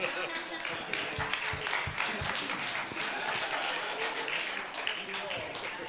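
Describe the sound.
Applause from a church audience during a Sunday morning service, a dense, steady patter of clapping lasting the whole stretch, with voices talking over it.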